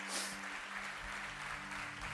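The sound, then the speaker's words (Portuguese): A church audience applauding during a service, dense steady clapping from many people that runs through the whole clip at an even level without a break. “Você pode aplaudir o nome do Senhor, em nome de Jesus?”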